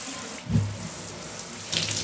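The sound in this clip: Water runs from a shower in a steady, soft hiss of spray, with a brief low splash near the start and a slightly brighter, louder stretch of flow toward the end.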